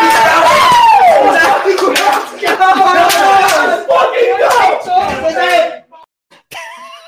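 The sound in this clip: People cheer and shout excitedly as the Flyers make their seventh-overall draft pick, Michkov. The loud, overlapping voices break off into a brief near-silence at the end.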